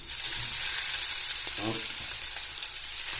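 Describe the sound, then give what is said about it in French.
Meat seasoned with ginger, garlic, salt and pepper sizzles in oil in a pan, giving a steady, bright crackling hiss that runs throughout with no voices. “Je mets de l'huile. Donc là, je mets la viande.”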